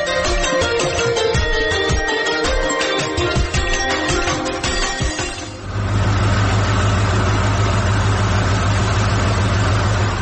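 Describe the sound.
A car engine idles in a loud, steady low rumble that takes over after several seconds of busier mixed noise.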